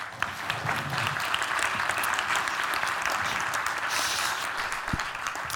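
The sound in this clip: Audience applause welcoming a speaker to the stage: a steady, even wash of many hands clapping throughout.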